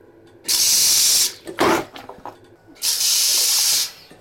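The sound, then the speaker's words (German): Loud rushing hiss of a chemical vacuum toilet flushing on a German ICE train, heard as two long bursts of suction with a shorter, choppier burst between them. “Die Chemo-Klospülung des ICE der Deutschen Bahn AG.”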